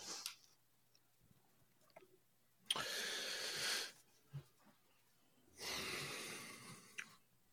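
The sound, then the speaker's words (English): A person takes a deep breath, heard as two long, airy, hissing breaths separated by a quiet pause with small soft mouth noises. “A deep breath. I had a deep breath there.”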